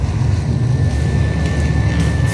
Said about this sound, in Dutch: En nu als een ontketende coureur rijdt hij hier de rondjes op de heilige klei.